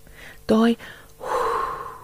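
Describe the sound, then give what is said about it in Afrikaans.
A person breathes out hard from the back of the throat as a relaxation breathing exercise. A short voiced huff is followed by a longer, rasping breathy exhale. “Daai uithaal asem.”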